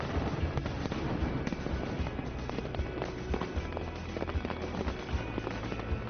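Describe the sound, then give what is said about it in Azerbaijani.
Fireworks over a waterfall at Niagara: many sharp crackles and pops burst in quick, irregular succession over a steady low rushing roar. “Hər həftənin cümə və bazar günləri isə şəlalənin üzərində atəşfəşanlıq olur.”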